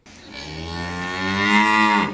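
A cow lets out a single long, loud moo with a low, rich tone that swells a little toward the end.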